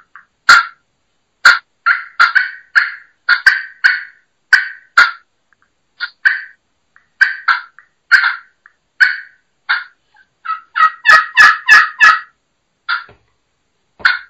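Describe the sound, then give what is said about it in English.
Turkey clucking made on a pot-and-peg friction call: many sharp, clipped clucks in uneven groups, with a quicker burst of clucks near the end. The clucks are loud and heard alone. “So let's hear you do some clucking on a friction, on a pot and peg.”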